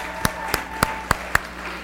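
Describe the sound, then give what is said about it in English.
Church audience clapping on a church platform in welcome: five sharp, evenly spaced claps over a low steady hum. “And we're going to welcome her this morning to the City Church platform. Can you give her a great big hand this morning?”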